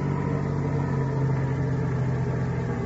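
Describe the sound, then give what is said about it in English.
A car's engine idles after the car has stopped beside a shack, giving a steady, low, even rumble with a faint hum. The sound holds constant, without revving, for the whole stretch. “Turn off that motor.”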